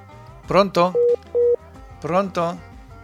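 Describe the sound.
Two short, steady beeps of a telephone tone after a dropped call, flat and even in pitch, set between bursts of a person talking.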